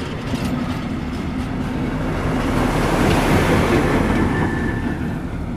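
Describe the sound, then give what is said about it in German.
A locomotive passes near a waterside recreation area with a steady, broad rumbling roar that barely changes. A thin high whine joins partway through. No voices are heard. “Jetzt kommt gerade die Lok vorbei.”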